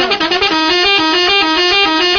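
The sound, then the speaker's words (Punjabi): A vehicle horn blares in one long, continuous, loud honk with a rich, slightly wavering multi-tone sound that holds steady to the end. “ਨਹੀਂ ਹਟਿਆ ਵਜਾ ਗਿਆ horn”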